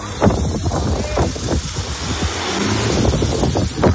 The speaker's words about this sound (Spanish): Suena el viento, que es uno de los principales problemas con los que se están encontrando los trabajos de extinción.